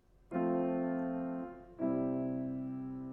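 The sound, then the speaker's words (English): A four-one plagal cadence plays as two sustained chords. The first is held for over a second, then fades into the second, which rings on longer and slowly decays. Both are soft and smooth, with nothing else heard. “A 4-1 cadence sounds like this.”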